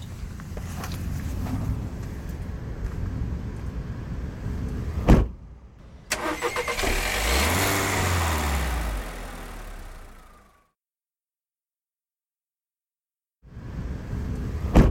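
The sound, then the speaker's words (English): A police cruiser's car engine starts up: a sharp thump, then the engine cranks, catches and idles with a rising rev before cutting to silence, and a further burst of engine noise returns near the end. “Leave your car here. We can just hop in the cruiser and head out. Easier if I just drive instead of trying to relay directions.”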